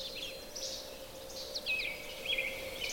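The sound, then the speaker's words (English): An American robin sings short, high, warbling whistled phrases with small pauses between them. The song is fairly faint over a steady low tone. “Oh, now there's a robin singing.”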